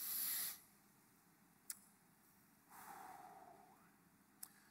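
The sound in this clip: A deep breath drawn in through the nose, heard as a soft, airy nasal inhalation lasting about a second. It follows a brief hissy burst, with two tiny clicks in between, and the whole passage stays faint.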